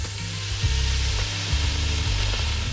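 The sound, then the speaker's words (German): Bacon sizzles as it fries in a large pot, a loud, steady, dense hiss that continues throughout with no talk. “Da kommt jetzt rein der Speck. Der wird jetzt erstmal schön ein bisschen angebrutzelt, angebraten.”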